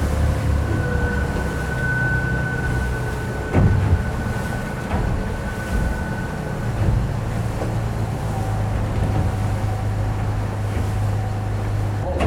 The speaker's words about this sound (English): off the Vermilion, we are throttling down and we'll see what happens here.